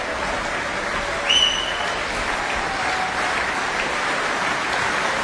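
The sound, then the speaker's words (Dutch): Steady applause from an audience of about 400 people after a string quartet concert: dense, continuous clapping that holds at an even level throughout, with no voices standing out. “ik schat inderdaad zo'n 400 man, blijft enthousiast klappen.”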